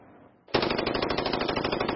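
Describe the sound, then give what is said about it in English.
Rapid gunfire from a rifle fitted with a bump stock: after a brief quiet start, a loud, continuous burst of shots in a fast, steady rattle that runs to the end. “Bump stocks are aftermarket additions that allow weapons to fire hundreds of bullets a minute.”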